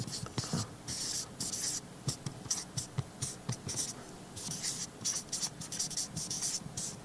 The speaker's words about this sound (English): I'm going to write it down on the board over here, even though it's going to be on the screen for you.